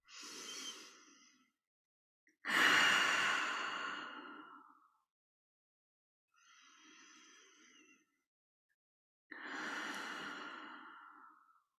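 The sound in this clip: Slow, deep breathing during a guided meditation: four drawn-out, airy breaths of varying strength, each separated by a silent pause, soft and unhurried.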